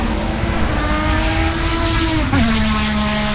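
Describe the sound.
Race car engines on a nearby motor racing circuit make a loud, sustained, high-revving drone. The pitch drops sharply near the end, as a car passes by.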